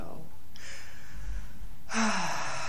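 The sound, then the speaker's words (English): Someone takes a slow, deep breath during a guided breathing exercise, with a short spoken word at the start. A long, airy intake is followed by a louder, fuller rush of air as the breath is released. “So let's just take a 3-second deep breath here. And let's let it out.”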